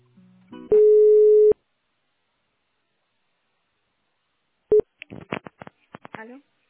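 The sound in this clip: Telephone line tones while a call is transferred: a steady, buzzy tone holds for under a second, a short beep sounds after a pause, and then voices talk.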